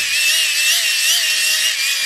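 A hand-crank flashlight is wound steadily, giving a continuous, loud, high whirring buzz with a faint wavering hum beneath it and no pauses.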